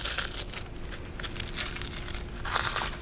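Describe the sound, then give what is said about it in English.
Crinkling, tearing crackle of frozen lettuce leaves being peeled from a whole frozen head, a Foley stand-in for frozen hair peeling off a wooden door; a continuous dry rustle that swells slightly near the end. “her frozen hair peels off the wooden door she's floating on. This makes a subtle background sound that the Foley team created by freezing an entire head of lettuce before peeling its leaves.”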